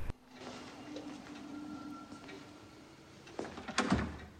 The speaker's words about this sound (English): She goes back to the door, cautiously looking around before trying the handle.